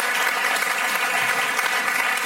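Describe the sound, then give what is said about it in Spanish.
Audience applause for the Teatro del Barrio, a theatre recently honoured with the National Theatre Prize. Many hands clap in a steady, fairly quiet patter that keeps going evenly throughout. “Vamos a darle un aplauso a Teatro del Barrio.”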